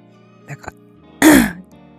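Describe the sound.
One loud, rasping throat clearing lasting about a third of a second, preceded by a couple of faint small vocal sounds and followed by quiet.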